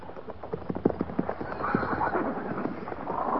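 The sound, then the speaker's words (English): Horses' hooves clip-clop as mounts are led out during a cavalry mounting drill: many sharp, irregular clops, followed by a whinny over a busier stretch of hoofbeats. “Stand a horse. Lead out. Prepare to mount. Mount.”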